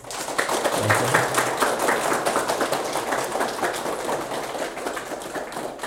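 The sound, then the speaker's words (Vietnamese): Audience applause closes a Buddhist dharma talk: dense, steady clapping that holds at an even level for about six seconds, with no clear voices over it. “Không có gì hạnh phúc bằng được nghỉ, vỗ tay rơm rã làm sao á.”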